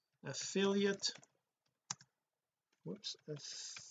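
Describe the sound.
Computer mouse clicks while working in an online ads tool: a few short, sharp clicks fall in a pause between bursts of a man's speech.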